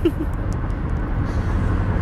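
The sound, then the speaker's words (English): Road and engine noise from a moving car: a steady low rumble that holds constant throughout, with faint hiss above it and no distinct events. “I'm just driving, doing some self-reflecting right now. I promise I can do podcasting and driving at the same time.”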